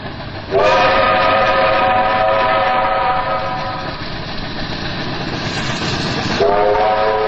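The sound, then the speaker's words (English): A 62 class Garratt steam locomotive on a 1981 Canberra run sounds a long, loud, steady whistle over rumbling rail noise. The tone drops away near the end, then briefly returns. “It's the sound of steam. And for all you train spotters out there, the sound of a 62 class Garrett loco on the Canberra Parks run back in 1981, in case you didn't pick it.”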